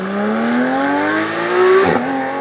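A loud vehicle engine revving on a busy road, a strong buzzing tone that climbs steadily in pitch, then dips briefly and settles near the end.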